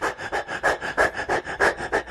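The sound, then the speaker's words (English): A voice demonstrates hyperventilation breathing with many rapid, short, forceful panting breaths in a steady quick rhythm, loud and alone. “So what does hyperventilation look like? Hyperventilation is more like,”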